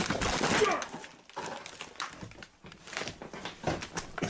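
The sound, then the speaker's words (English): A floor cracks and breaks as someone falls through it: a loud burst of crashing and splintering noise at the start, then scattered cracks and rattling debris at lower loudness. “Well, I just fell through the floor.”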